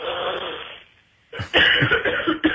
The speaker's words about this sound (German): Da muss man mal husten.